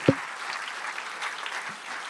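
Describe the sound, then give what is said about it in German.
Steady audience applause in a tribute to the late SpongeBob creator, a dense, even patter of many hands clapping that stays level for the whole stretch, opening with one sharp thump. “So, einmal Applaus für Steven Hillenburg.”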